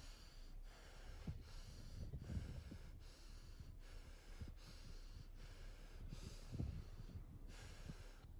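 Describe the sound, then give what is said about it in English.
Repeated breaths taken in an energetic breathing exercise, a cycle at the person's current pace and depth: soft rushing airflow in a steady, regular rhythm, faint and alone with no talk. “I'm going to do a first cycle of five breaths at my current pace and depth.”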